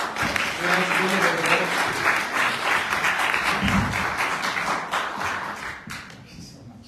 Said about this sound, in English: Let's give him a welcome him here today with us.